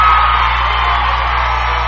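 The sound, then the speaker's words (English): A football crowd at a West Laco game erupts after a score: a loud, sustained wall of cheering voices with no breaks. “Crowd erupting there is on the West Laco scoreboard.”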